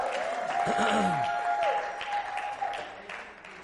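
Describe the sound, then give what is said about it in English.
A church audience claps and cheers at a morning service, a dense wash of clapping mixed with shouting voices over a held musical tone. The noise is strongest early, then gradually eases off toward the end. “Well, give Jesus a shout this morning. That's all right.”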